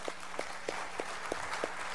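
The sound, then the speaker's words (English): Faint audience applause for children, heard as a quiet, even rhythm of about seven distinct claps spread across two seconds. “How about another round of applause for our kiddos?”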